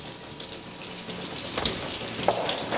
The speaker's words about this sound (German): Mittlerweile regnete es in Strömen.